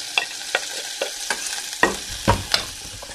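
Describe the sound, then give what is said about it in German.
Onions fry in butter in a pan while a utensil stirs and scrapes, giving a series of sharp, irregular clicks over a soft, quiet sizzle, with no talk. “Butter drinnen die Zwiebelchen da rein.”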